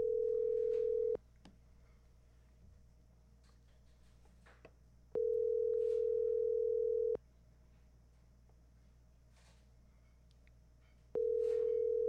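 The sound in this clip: An outgoing telephone call rings on the line: a steady electronic tone sounds three times in long, even pulses. Several seconds of quiet line hiss separate each pulse, and no one speaks.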